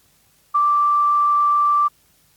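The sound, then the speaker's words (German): A single steady high-pitched beep from a school's answering machine, marking the start of message recording. The beep holds an even tone for just over a second, alone against near silence. “Sie haben den Anrufbeantworter des Gymnasiums in Ebermannstadt erreicht. Leider sind wir bis Montag um 8 Uhr geschlossen. Bitte hinterlassen Sie Ihre Nachricht nach dem Ton.”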